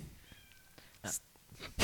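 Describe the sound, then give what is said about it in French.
A cat meowing, wanting to play. A faint, thin tonal meow comes early, followed by two short, louder bursts of noise, all fairly quiet overall. “Il y a le chat. Le chat qui veut jouer.”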